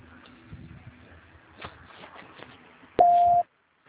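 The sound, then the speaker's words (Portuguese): A single short, loud, steady electronic beep marks a telephone call transfer, following a stretch of faint background murmur. “Só um minuto, por favor, que eu vou transferir a sua ligação.”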